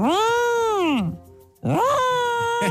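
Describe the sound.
A person imitates a yowling cat with two long, loud, wavering wails separated by a short pause, the first arching and falling away at its end, the second swooping upward and then holding steady.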